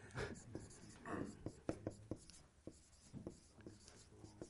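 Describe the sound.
Writing on a board makes many faint scratching and tapping strokes in an irregular rhythm of short bursts and pauses, quiet throughout.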